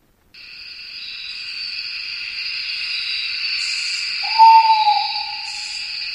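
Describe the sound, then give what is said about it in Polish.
A night bird gives a long, raspy, high hissing screech that holds steadily for several seconds. A brief clear whistled note rises out of it near the end. “No to skoro nocne ptaki pojawiły się na antenie Trójki, no może niekoniecznie znaczy to, że audycja ornitologiczna właśnie w tym momencie się zaczyna, ale to są nasze ulubione nocne ptaki.”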